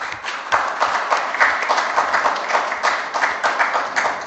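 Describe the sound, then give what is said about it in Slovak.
Audience applause at a Slovak gathering, the clapping settling into a steady, rhythmic beat of repeated pulses that keeps an even pace. “Ak súhlasíte, zatlieskajte, keď nie, tak ma vypískajte.”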